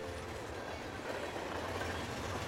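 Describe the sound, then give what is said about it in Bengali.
A mail or express train rattles across a rail bridge, a continuous, dense rumbling clatter that holds steady at an even loudness throughout, with no voices. “দূরে তখন rail ব্রিজের ওপর ছুটে চলেছে কোনো mail বা express ঝমঝম শব্দে মিশে হারিয়ে গেল সব কথা বুকের গভীরে”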